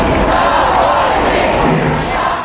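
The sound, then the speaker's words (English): A large crowd of mourners at Navalny's funeral procession from the church to the cemetery raise their voices together in a loud, sustained roar of chanting. “Pallbearers carried Navalny's coffin from the church. And a large crowd of mourners walked from the church to the cemetery, chanting, "Free political prisoners."”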